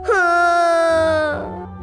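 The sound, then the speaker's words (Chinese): A boy's despairing crying, voiced by a performer: a loud, sustained, tonal wail that holds for about a second with a slightly falling pitch, then breaks off into quieter, rougher sobbing. “想到自己可能会死在这里，尼尔斯绝望地哭了起来。”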